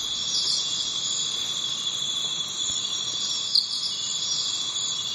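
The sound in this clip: Jungle ambience in stereo, dominated by a dense, steady, high-pitched chirring chorus of crickets and other insects that continues unbroken and fairly faint throughout.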